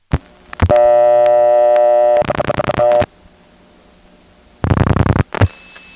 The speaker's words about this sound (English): The classic sound of dialing into an N3 carrier trunk can be heard here.